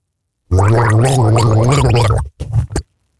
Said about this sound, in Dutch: Dus kan jij raden welke tune hij gorgelt?